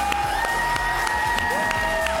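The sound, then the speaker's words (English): Rhythmic clapping from a group of onlookers cheering on a man shoveling snow at Christmastime. Steady, evenly spaced claps come through amid lively crowd noise. “I've never had people clap for me shoveling the snow, so it feels really good.”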